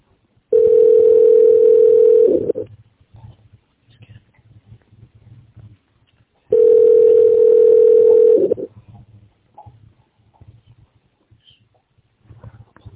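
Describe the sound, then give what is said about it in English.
Telephone ringback tone heard while a call to an office line is being transferred: two steady, mid-pitched tones of about two seconds each, separated by roughly four seconds of near silence. “If you know your party's extension, you may dial it now. Transferring to Ken Kirschenbaum.”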